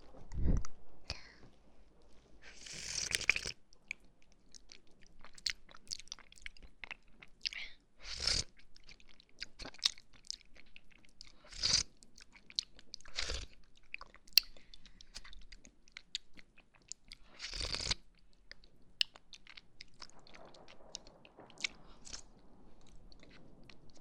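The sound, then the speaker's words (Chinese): Someone eats a snack with quiet crunching and chewing. Many sharp bites are scattered irregularly over soft, faint mouth sounds, and no sipping can be clearly picked out. “这个小吃货。喝一口酸奶啊”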